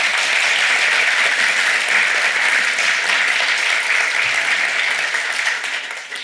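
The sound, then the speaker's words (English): An audience at a literary event applauds to welcome two novelists, with dense, steady clapping that holds loud throughout and eases slightly at the end. “So please give them both a warm welcome.”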